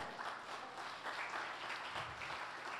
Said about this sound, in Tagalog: Palakpakan natin ang Panginoon.